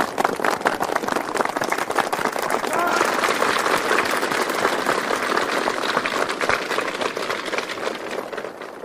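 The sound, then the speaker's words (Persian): An audience of students breaks into applause: dense, loud, sustained clapping that fills about nine seconds, with crowd voices mixed into the din. “تشویق.”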